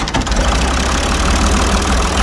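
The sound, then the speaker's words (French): A tractor engine idles with a steady, loud, low rumble and an even throbbing pulse that runs without a break from start to finish. “Allez, vous venez avec moi, je suis sur le tracteur”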